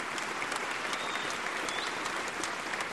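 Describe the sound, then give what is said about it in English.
Sustained applause from an audience giving a long standing ovation at a memorial tribute for Ted Kennedy. Dense, even clapping continues without pause, loud and steady throughout. “At the end, the whole audience rises for a very long standing ovation.”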